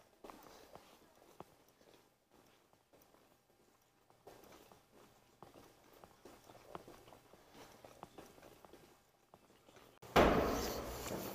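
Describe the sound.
Faint footsteps climb stairs in a quiet, fairly regular series of soft thuds and scuffs, then a sudden loud burst of noise cuts in at the end.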